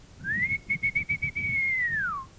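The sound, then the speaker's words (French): A magic silver whistle blown in one long, clear, high tone. It rises at the start, flutters through several quick breaks, holds steady, then falls away at the end over low background noise. “un sifflet en argent, qui est un sifflet magique. Souffle dedans, et tu verras. Petit Pierre dit merci, prend le sifflet, et il siffle.”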